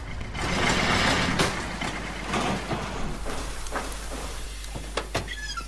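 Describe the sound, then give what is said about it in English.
A clapped-out rusty truck with a dead fuel pump runs at a salvage yard. Its engine rumbles loudly at first, then settles into a rougher, lower idle, with a few sharp clanks and clicks toward the end. “There is nothing like the purr of a well-tuned engine. And that wasn't it.”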